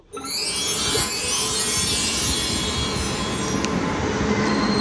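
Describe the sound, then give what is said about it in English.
A train pulls into a station, its wheels rumbling steadily while a high, sustained metallic squeal rides above the noise, loud and unbroken for the whole stretch. “it appears that Cromedy has arrived at the station”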